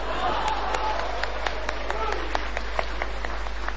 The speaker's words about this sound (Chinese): 可以鼓掌了